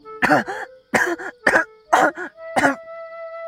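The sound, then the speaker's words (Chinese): A man coughs while pinching his nose: five harsh, separate coughs in quick succession, loud and with no talk. “展昭更夸张，捏着鼻子咳嗽，身后已经恢复了无形状态的娇娇帮着展昭拍背。”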